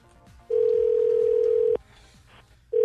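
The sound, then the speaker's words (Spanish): A telephone dial tone sounds while a prank call is being placed, a steady, pure single-pitched tone that holds for over a second, stops, then starts again, with faint voices underneath. “Dale, vale, entonces vamos a marcar para hacer la broma a tu carnal, papuchón.”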